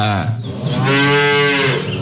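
A cow gives one long, loud, low moo at morning milking time, a rich harmonic bellow that holds for about two seconds.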